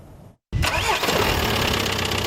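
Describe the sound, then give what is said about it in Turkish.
A diesel car engine at a second-hand car market starts abruptly after a moment of silence and settles into a loud, steady running rumble. “Nasıl sesi? Dijel araba yani, dijel motorun sesi.”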